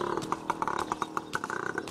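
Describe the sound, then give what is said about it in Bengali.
A motorcycle engine roars as Captain Krishnan starts it and rides alongside walkers in a thin forest. The engine gives a rapid, pulsing putter of sharp bursts, fairly loud and steady, with no speech. “Motor সাইকেলটাও নামানো হয়েছে captain Krishnan তাতে চড়ে বিকট আওয়াজ তুলে start দিয়ে আমাদের পাশাপাশিই চললেন”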